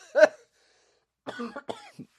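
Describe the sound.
A person coughs after inhaling their own spit: one sharp cough, then after a pause a cluster of rougher, spluttering coughs and throat clearing.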